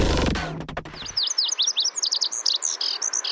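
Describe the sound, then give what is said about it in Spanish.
Lazuli bunting song, from a small migratory bird of the cardinal family: many quick, bright, high-pitched chirping notes in a lively run, following a brief stretch of low noise at the start. “El colorín pecho canela, Passerina amoena. El colorín pecho canela, también conocido en inglés como la Sully Bunting, es una pequeña ave migratoria de la familia Cardinalidae.”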